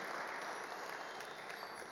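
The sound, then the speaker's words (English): Audience applause: steady, dense clapping that stays faint and even throughout. “Give Michael a round of applause.”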